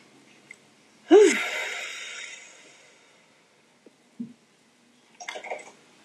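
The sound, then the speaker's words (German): Breathing in through the nose and out through the mouth during a calm focusing exercise, heard as one strong, airy rush of breath that fades over about a second, followed later by a few brief, softer breathy noises. “mit der Nase einatmen und mit dem Mund wieder ausatmen.”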